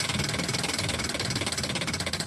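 A prize wheel being spun gives a rapid, even clatter of ticking clicks that keeps a steady pace throughout, with no voices.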